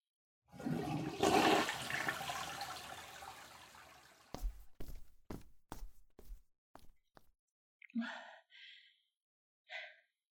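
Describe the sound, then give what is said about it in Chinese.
Toilet flush: a loud rush of water surges and slowly drains away over several seconds, followed by a run of sharp knocks and a few short, faint breathy sounds. “老公啊，你上完厕所冲干净啊，然后把防扇打开，赶紧出去吧。”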